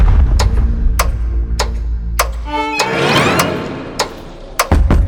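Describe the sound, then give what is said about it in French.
Knocks struck against a wall in an audio drama: widely spaced single sharp raps at a steady pace, a brief noisy swell in the middle, then a few louder, closer-spaced knocks at the end. “Alice sursaute, le cœur battant. Les coups semblent avoir été portés contre le mur, mais dans l'obscurité totale, elle ne distingue rien.”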